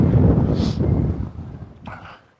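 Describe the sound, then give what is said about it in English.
Wind buffets a microphone outdoors while someone walks in cold weather. A heavy, low rumble surges in gusts, then drops away to near silence at the end. “Every once in a while that wind catches me in the side of the face or something. It's still really cold.”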